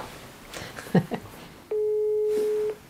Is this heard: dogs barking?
no